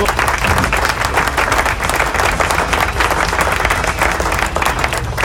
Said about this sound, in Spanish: Aplauso.